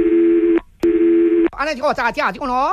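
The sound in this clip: Telephone line tones during a call transfer: two long, steady buzzing tones separated by a brief gap, followed by a person speaking on the line.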